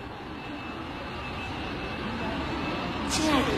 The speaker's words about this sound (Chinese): 本次航班已经安全降落在深圳机场，谢谢您的光临。